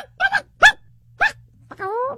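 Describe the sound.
Human voice imitating a dog that turns into a chicken: a few short, barky yaps separated by pauses, then a longer wavering, clucking call at the end.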